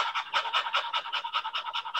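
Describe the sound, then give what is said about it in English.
Short, shallow panting breaths from a person demonstrating painful, restricted breathing: many quick, even puffs of air in a steady rapid rhythm, fairly soft, with no talk. “And so when I can breathe in now and go like that, that's a long breath. My breath was this.”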